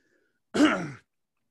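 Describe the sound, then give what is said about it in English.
A person choking and clearing the throat: one short, rough, harsh burst, heard alone in silence. “So here's the point I want to make. Excuse me. I'm choking to death.”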